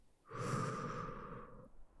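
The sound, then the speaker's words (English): A deep, slow breath, a soft airy whoosh lasting over a second with no talk over it, rising quickly and then easing off. “Now breathe, okay? In. And out.”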